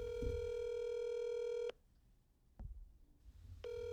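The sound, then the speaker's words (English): Telephone line tones while a number is dialed: a steady buzzing tone holds, cuts off, a single click follows in near silence, and the tone then returns, all fairly faint. “let's just dial and let's just do this”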